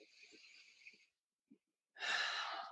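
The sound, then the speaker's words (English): A person takes a deep breath, a soft, airy inhale followed after a short pause by a fuller, louder exhale, both faint. “take a deep breath in and out and look for it in your body.”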